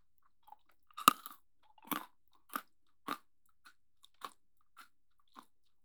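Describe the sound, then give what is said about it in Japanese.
Crisp crunches of premium crunchy chocolate being bitten and chewed: one sharp bite followed by a slow, irregular series of quieter chewing crunches, with no talk. “さっきクソ兄貴からプレミアムクランキーチョコレートもらったんだ。姉ちゃんも食べる？はい。いただきまーす。”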